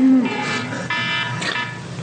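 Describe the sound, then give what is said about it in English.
An alarm going off, sounding as a few repeated high electronic beeping tones over a constant noisy background hum. “The alarm just went off.”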